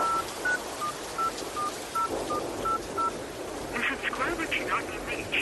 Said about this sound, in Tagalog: Sandali lang po at susubukan ko kong tawagan si tatay.